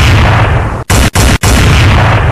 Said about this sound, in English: Ay, put a bomb on it.